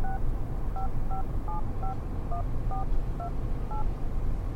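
Telephone keypad tones dial a number: a brisk series of short, even, two-pitch beeps over a constant low background hiss, with no talk.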